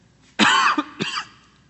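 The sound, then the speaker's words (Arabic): Two harsh coughs come alone, a longer rasping one followed by a shorter one. “لا انا عندي كحة اساسا، عندي كحة”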